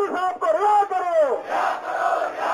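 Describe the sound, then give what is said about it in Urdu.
Protesters chant slogans against Israel and America at a rally in India, a crowd of massed voices shouting loudly in unison with drawn-out sung tones that give way to rougher, overlapping crowd noise. “مظاہرین نے اسرائیل اور امریکہ کے خلاف نعرے لگائے”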